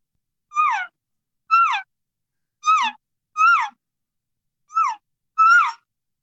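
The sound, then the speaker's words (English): Six soft, short mewing elk calf calls are blown on a diaphragm mouth call. Each high, whiny note falls in pitch, and the notes are spaced at fairly even intervals with silence between. “So my calf sounds with my diaphragm sound something like this.”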